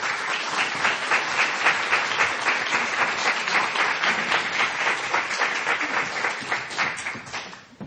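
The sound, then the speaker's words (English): Warm audience applause greets two authors at a book reading in Philadelphia, a dense, even clapping that holds steady for several seconds and then tapers off at the end. “So ladies and gentlemen, please give a warm Philadelphia welcome to Anne Enright and Julia Otsuka.”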